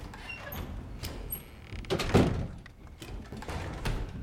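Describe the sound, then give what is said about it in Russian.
A door closes with a few dull, muffled thuds around the middle as a man walks out, set against low ambient noise with a faint high whine. “Отец выходит за дверь.”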